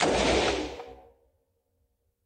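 Single gunshots from an AR-15 semi-automatic rifle: one loud, sharp blast with a long fading tail, then near silence before a second shot begins right at the end.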